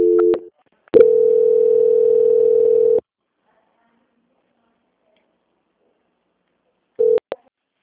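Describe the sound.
Telephone line tones play during a bank call being transferred: a short tone burst, then a steady, even tone held for about two seconds, a long silence, and finally another brief tone with a click.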